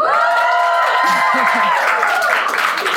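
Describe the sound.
A live audience at Pomona College in Southern California cheers and applauds. The broad, noisy clapping swells under and after a raised voice.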